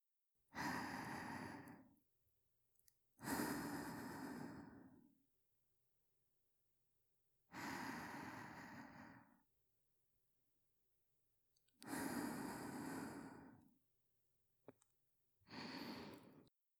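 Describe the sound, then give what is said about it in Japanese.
Deep, slow breaths of fresh air come as five loud, breathy rushes, each lasting one to two seconds. Near-silent pauses separate them, with a few faint clicks between. The last breath is cut short. “近くの空気を吸ってみよっか。”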